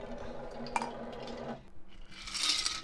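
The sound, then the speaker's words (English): A cocktail is stirred in a glass, with one bright clink early on, then soft, continuous rattling and swirling that turns hissier toward the end. “This is a stirred cocktail, so I'm going to stir this really quick, and we'll see what happens.”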